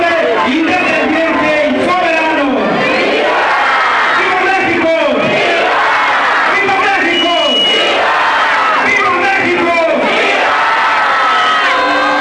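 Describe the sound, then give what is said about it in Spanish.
A crowd cheers and shouts at a Mexican Independence Day grito in Acapulco, a loud, continuous roar of many voices with repeated swelling yells. “Luego se vino la gala de pirotecnia y los vítores del público que estuvo presente en esta noche mexicana.”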